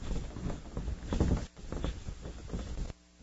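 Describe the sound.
Rubbing of an eraser wiping a drawing of a lamb off a board: repeated soft, scratchy scrubbing strokes at a faint level, stopping shortly before the end.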